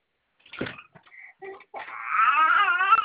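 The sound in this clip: A young child fussing and crying, with short whimpering sounds breaking into a sustained, wavering wail that grows louder toward the end.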